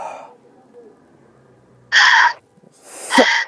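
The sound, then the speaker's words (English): Heavy breathing in and out through the mouth by a person during a healing prayer at a hospital. Three loud, breathy bursts separated by quiet pauses, the last ending in a rough rasp. “I want you to breathe in and out 5 times heavily with your mouth.”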